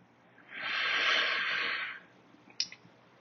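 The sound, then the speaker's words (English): A single long, deep exhale during meditation: a steady breathy hiss lasting over a second, then a faint click. “So let's breathe deeply. And as you exhale, whisper the mantra Om, emptying your lungs completely.”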